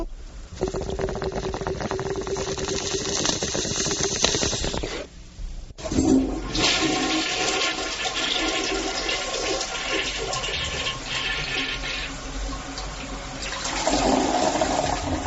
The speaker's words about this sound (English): He does the bong rip and a toilet flush.